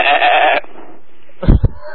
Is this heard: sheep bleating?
yes